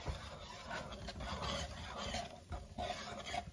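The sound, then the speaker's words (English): Wet, steady stirring of orange mush and orange juice in a bowl while making a Greek orange pie, a continuous rubbing, scraping texture with no clear breaks and no talking. “So obviously, it's some mush, orange mush, and some orange juice. Stir it all up.”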